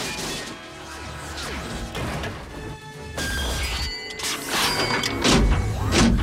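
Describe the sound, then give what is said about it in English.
Heavy metallic crashing and banging as a robot is slammed against an upturned truck and crashes to the floor, loud and continuous, with grinding, clanking mechanical noise throughout. “slamming him against the upturned truck, then rolling forward onto the floor to try and crush him”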